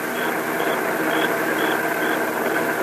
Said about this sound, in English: Hey, here comes the car. Stick out my thumb.